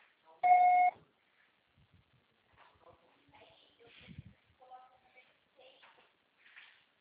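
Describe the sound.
An answering machine gives a single loud, steady electronic beep before a message is recorded, followed by faint voices talking quietly.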